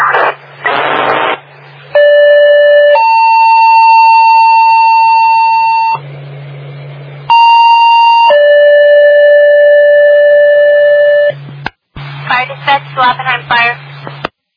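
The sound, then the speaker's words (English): A fire station siren sounds during a radio siren check, its steady tone switching back and forth between a lower and a higher pitch over a low hum, with voices talking before and after. “radio siren check okay”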